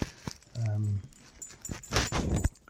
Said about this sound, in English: But that's the dog again rattling away.